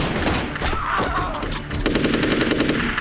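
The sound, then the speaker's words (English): Rapid rifle gunfire plays in a video, loud continuous bursts of fast, even shots that sharpen into a quicker rattle in the second half. “Are those like just badly CGI'd bullets coming out of his rifle? Yes. Yes, that is what it is.”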